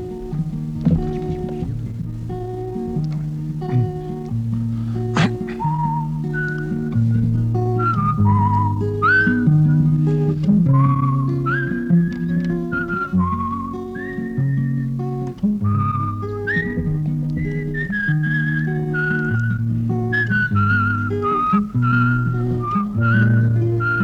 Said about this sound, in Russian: Только ты давай вот сюда, ты свисти.